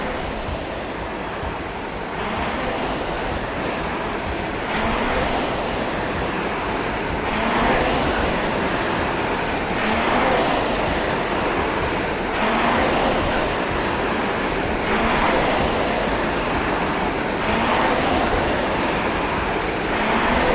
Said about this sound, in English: You could do this all day. Good. Drive through those heels. Push that machine away.